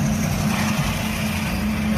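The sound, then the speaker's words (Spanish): Dakar Rally motorcycles in South America roar at the start of the race's second stage, a loud, steady, rough engine drone with a low hum underneath that continues unbroken throughout. “Así sonaban las motos al largar en la segunda etapa del rally, como decíamos, que aunque conserva el nombre de la capital de Senegal, ya lleva 10 años en América del Sur.”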